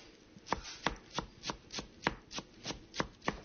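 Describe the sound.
A chef chops herbs with a knife for a chicken marinade in a Beirut restaurant kitchen: about ten sharp, evenly spaced chops in a steady rhythm, with no voices.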